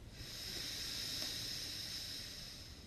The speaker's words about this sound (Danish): Og igen en dyb indånding gennem næsen, og helt ned i maven.